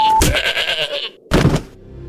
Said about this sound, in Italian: Ah, la caprata! Ah, la capra!